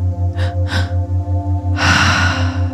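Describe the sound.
Breathing during a guided breathing exercise: two quick, sharp breaths, then a longer, fuller breath, all over a steady, pulsing low beat.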